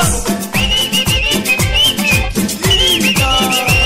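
A person whistles a melody high and clear over loud dance music with a strong thumping beat that repeats steadily throughout.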